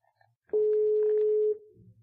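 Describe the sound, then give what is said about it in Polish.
A single steady telephone tone on an outgoing call holds for about a second, clear and even, then cuts off and leaves faint low noise. No voices. “czyli zadzwonię do pana doktora habilitowanego Zbigniewa Kołtowskiego, profesora Instytutu Ogrodnictwa.”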